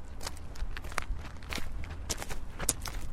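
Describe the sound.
Footsteps of people walking through the world's northernmost botanic garden in Tromsø, a soft, irregular series of many faint scuffing steps, with no talk over them.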